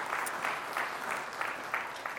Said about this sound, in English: Let's give the Lord a round of applause and just celebrate what He has done